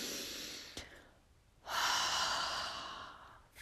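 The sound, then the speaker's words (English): A slow, deep breath, with one soft airy breath, a short quiet pause, then a longer and fuller breath that fades gradually. The breathing is quiet and there is no talk. “Wherever you're at listening to this, I want you to take a deep breath.”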